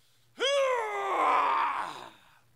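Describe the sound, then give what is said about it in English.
A single long groan of physical effort from a person, voiced and mid-pitched. It starts sharply, holds steady for about a second and a half, then trails off into quiet. “You ever wonder why? Because when the body is groaning, there's something that comes out of your mouth.”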